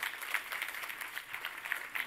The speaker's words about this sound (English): Give him a quick round of applause.